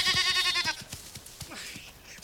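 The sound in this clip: A goat bleats loudly in one long, quavering cry as it is caught by the horns, a wavering nasal tone that breaks off partway through, followed by quieter low sounds.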